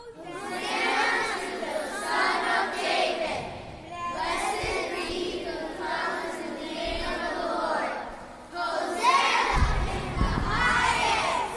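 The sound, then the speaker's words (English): Crowds and children shout and cheer in acclaim. Loud waves of massed voices rise and fall, with a brief dip before a final strong burst. “And the crowds that went before him and that followed him were shouting,”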